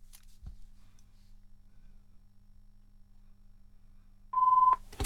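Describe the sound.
A telephone tone sounds as a single short, steady mid-pitched beep near the end, after long near-silence broken only by one faint click early on.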